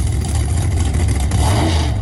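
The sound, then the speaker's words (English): A Pro Stock drag racing car's engine revs hard in a loud, continuous, steady roar with a deep rumbling low end that holds throughout, with no voices. “two massive nights of high revving Pro Stock car and motorcycle drag racing”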